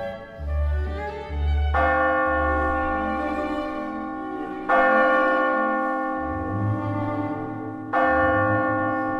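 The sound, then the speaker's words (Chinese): A cathedral bell rings in several heavy, resonant strokes spaced a few seconds apart, each rich in overtones that hum on and decay slowly. “大教堂上的大钟响了”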